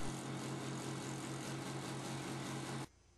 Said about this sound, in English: Then mount the wheel on your vertical sander and rotate for a perfect circle.